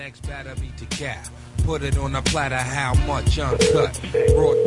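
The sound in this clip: Ringback tone of an outgoing telephone call, a steady mid-pitched tone coming in as two bursts near the end, heard beneath louder, busier overlapping sound.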